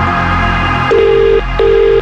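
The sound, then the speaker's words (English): Telephone ringing during a phone-in prize call: two steady, mid-pitched electronic ring tones, each about half a second long and separated by a short gap, over a constant low hum. “One ring. 2 rings. 3 rings. 4 rings.”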